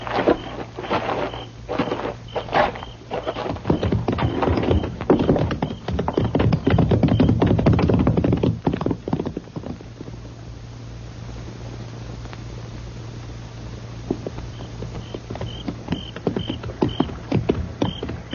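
Hooves of ridden horses clip-clopping in a long stream of many quick beats, busier and louder through the first half, easing to a sparse stretch, then picking up again, over a low steady hum.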